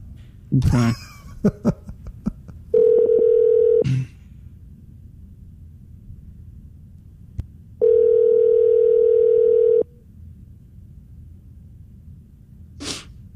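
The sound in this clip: Ringback tone of an outgoing telephone call: two long, steady, buzzing rings separated by a pause of several seconds, with a few brief noises before the first ring.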